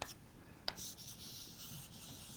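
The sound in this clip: A function graph is sketched on a board with faint scratchy writing strokes. A couple of sharp taps mark the start, followed by soft continuous rubbing.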